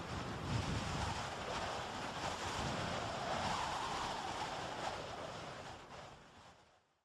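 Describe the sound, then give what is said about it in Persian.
Terrible wind rising with dust, a steady, broad roaring rush that holds strong for several seconds and then fades away toward the end. “در چند لحظه آسمان تیره رنگ شد و آنگاه بادی هولناک تو هم با خاک برخاست و تاریکی بر آفاق مستولی شد.”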